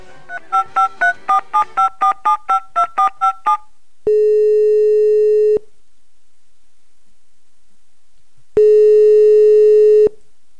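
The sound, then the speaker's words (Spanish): Telephone keypad tones while placing a call: a quick run of short dialing beeps, then two long steady ringing tones separated by silence. The tones are loud and clear, with no talking. “Podemos hacer una llamada telefónica, vamos a llamarlo.”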